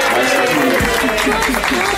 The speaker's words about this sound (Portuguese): Aí, ó, parabéns, palma pra ela.